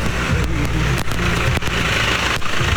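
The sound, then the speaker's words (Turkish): Steady engine rumble from a tractor coming along the road, a continuous mid-pitched drone at an even loudness throughout. “Yolda bakın traktör de bize doğru geliyor.”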